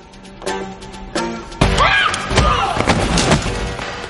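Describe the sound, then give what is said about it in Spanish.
A kick lands on an armed henchman during an action-comedy fight, giving a few loud, heavy thumps and slams spaced through the moment amid other scuffling noise. “En la nave 99 patea a otro matón armado.”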